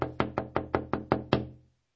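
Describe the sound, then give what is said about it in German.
Knocking on a door or window: eight sharp, evenly spaced raps in quick succession, loud and alone, with no voices. “Klopf mal dran. Naja, klopf ruhig mal.”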